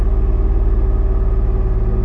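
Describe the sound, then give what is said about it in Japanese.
A car engine that has just been started idles with a low, steady rumble inside the car, heard from the dashboard. It throbs evenly and continuously, with no voices. “さあ、今エンジンをかけました。エンジンかけたらどうなるか。”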